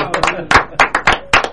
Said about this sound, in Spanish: Y si le brindamos un aplauso, ahí.